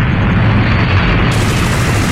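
A bomb dropped by German aircraft in a night air raid explodes a few metres away. The heavy, rumbling roar of the blast fills the whole clip, loud and continuous.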